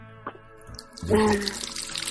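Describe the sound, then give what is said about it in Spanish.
A water tap is turned on: a few soft knocks, then a steady rush of running water that begins about halfway through and continues to the end. “Yo sí estoy abriendo, espérame, estoy abriendo el agua.”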